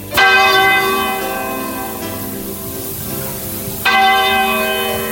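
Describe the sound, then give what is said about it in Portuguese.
A church tower clock bell strikes midnight with two loud, heavy strokes several seconds apart. Each one rings out in a rich, metallic tone that slowly decays and hums on before the next blow. “quando o ponteiro daquele relógio da torre da igreja deu meia-noite, começou a tocar.”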